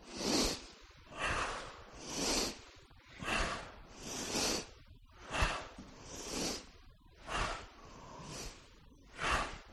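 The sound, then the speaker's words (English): Slow, deliberate breaths in and out through the nose during a Ping Chi breathing exercise in a mindful movement workshop, a series of soft, airy swells repeating at a regular, unhurried rhythm with brief quiet gaps between them. “we always begin this with something that's called Ping Chi, which is a breathing exercise. We breathe in through our nose, out through the nose, as, as we're going to do this 10 times to begin with.”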